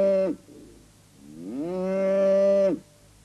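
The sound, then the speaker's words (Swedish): Cows low on a farm: a brief moo is cut off at the start, then after a pause comes a long, loud, deep moo that swells up and holds steady before stopping abruptly, with no voices. “kom hjälp mig med korna här.”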